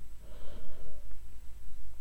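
A single breath drawn in during a guided breathing meditation, a soft airy rush of air that swells and then eases off, heard alone against a quiet low hum.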